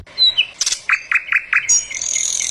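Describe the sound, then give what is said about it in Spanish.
Mockingbirds singing: bright chirps and whistled notes, including a run of four similar repeated phrases, followed by higher sustained tones, loud and with no talk. “Canto de cenzontles. Canto de cenzontles. Canto de cenzontles.”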